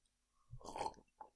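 A sip of a drink taken near the mic: a short wet slurping burst, then a smaller second one, quiet and without talk.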